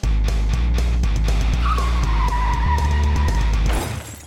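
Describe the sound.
A car skidding in a wreck sound effect: a loud engine rumble under a long, high tire squeal. It ends abruptly in a short burst of harsh crunching noise.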